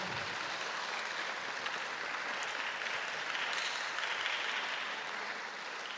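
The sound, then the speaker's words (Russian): A church audience applauds to congratulate members on their birthdays. The steady, dense clapping fills about six seconds at an even level. “Аплодисменты ваши.”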